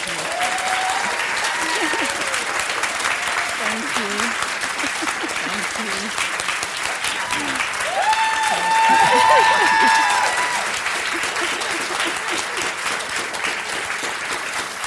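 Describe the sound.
A stage audience applauds to welcome two speakers: sustained, dense clapping that swells in the middle and then settles, with a few voices and cheers mixed in.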